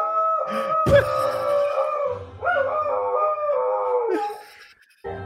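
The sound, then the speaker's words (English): A dog howling: long, wavering, tonal cries that glide and hold steady, with a couple of sustained howls and a short sharp burst near the start. “This is the perfect dog.”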